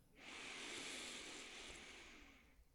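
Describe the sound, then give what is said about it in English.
A long, deep breath drawn during a guided New Year's intention-setting ceremony: a soft, airy rush that lasts over two seconds and fades slightly as it ends, heard alone and faint. “Let's take a breath.”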